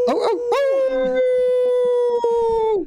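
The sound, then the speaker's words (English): People howl like wolves, a jumble of short yelps followed by one long, loud sustained howl that holds steady and then drops in pitch as it ends. “That's us howling like complete idiots because we're going to be riding some.”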